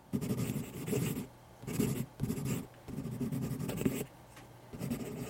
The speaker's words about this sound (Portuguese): Prezado Saci, em vez de me apresentar, resolvi lhe escrever uma carta.